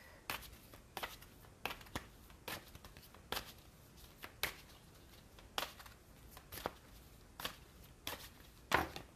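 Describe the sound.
Oracle cards being shuffled by hand: many sharp, quiet flicks and slaps at irregular intervals over a soft rustling background.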